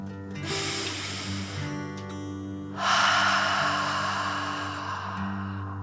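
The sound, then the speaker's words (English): Slow, deep breathing during a guided relaxation exercise: a long breath drawn in, a brief pause, then a longer and louder breath out, steady and unhurried. “breathe like a dragon in and out”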